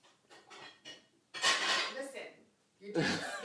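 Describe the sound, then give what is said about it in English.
Dishes and cutlery clattering while being washed: a few soft knocks, then two louder stretches of clinking and scraping of crockery and silverware. “doing dishes right now, isn't she?”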